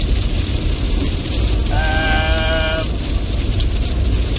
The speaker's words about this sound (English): We'll call in the sheep and or goats. Sheep don't always want to come in, though.